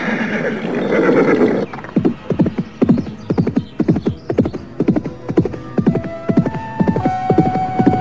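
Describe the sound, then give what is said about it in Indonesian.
Horses neigh as riders set off on horseback heading west: a drawn-out whinny opens, then many hoof beats clip-clop in a quick, steady rhythm, loud and clear with no talk over them. “Kita berkuda ke arah barat dulu.”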